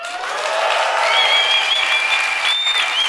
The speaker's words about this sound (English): For the audience back home, I made them yell and they complied.